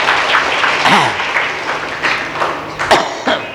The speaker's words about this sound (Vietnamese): Đề nghị vỗ tay cho đạo tràng.